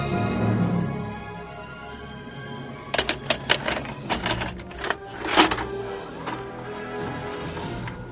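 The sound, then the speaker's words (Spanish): Mechanical clicks and clunks of a VHS tape being pushed into a VHS player, a quick irregular series of sharp loud clicks with a heavier clunk near the end, after a stretch of low rumble. “Este es el sonido de meter un VHS en un reproductor de este tipo de cintas.”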